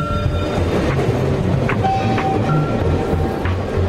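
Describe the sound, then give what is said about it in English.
A train rumbles over a railway bridge overhead in an area of council estates and railway tunnels: a loud, continuous rolling rumble with faint metallic squeals throughout. “A train rumbles over a bridge overhead.”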